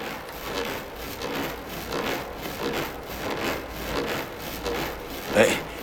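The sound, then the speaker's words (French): Coiled garden hose hung from a tree branch as a swing makes a rhythmic rubbing, creaking scrape against the wood with each sway. The strokes repeat many times at a steady pace, then end with a brief sharper scrape. “J'ai accroché les deux bouts à la branche d'un arbre et ça me fait comme une balançoire. Et quand je me balance, ça frotte et ça fait du bruit.”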